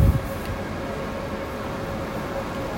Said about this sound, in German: Ich bin jetzt hier am Frankfurter Hauptbahnhof.